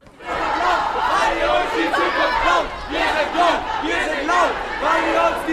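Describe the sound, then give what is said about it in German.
Rhythmic chanting from a large crowd of school students at a Fridays for Future climate protest march in Flensburg, loud and continuous, with the repeated chant phrasing rising and falling in steady cycles. “So wie hier in Flensburg klang es heute an vielen Orten in der Republik. Wir sind bunt, wir sind laut, weil ihr uns die Zukunft klaut. Das ist so etwas wie der Leitspruch der jungen Klimabewegung in Deutschland. Lautstark zogen mehr als 1000 Schüler aus Flensburger Schulen durch die Innenstadt”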